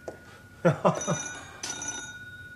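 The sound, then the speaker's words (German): A telephone rings in an apartment in two bursts. The first is a rapid rattle of bell strikes and the second is shorter. A bright metallic tone lingers between and after them. “Da ist aber jemand furchtbar hartnäckig. Steve, geh ans Telefon.”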